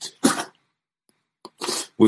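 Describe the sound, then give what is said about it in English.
Sharp, breathy sneezes from a person who has just landed after a flight: a few loud, noisy bursts separated by short silences, with the last one cut off at the end. “I'm sneezing a little bit. It's because I've actually just landed in Melbourne”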